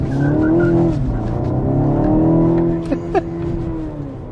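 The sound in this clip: A sporty TI-trim car with a tightly set limited-slip differential drives off and accelerates, its engine note climbing strongly, easing after a shift, then climbing again, with a couple of sharp clicks near the end.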